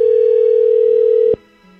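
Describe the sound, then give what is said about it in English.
Steady single-pitch telephone dial tone while a number is called. It holds evenly for about 1.3 seconds, then cuts off abruptly, leaving only a faint low hum. “Calling the phone number that's just one different than yours.”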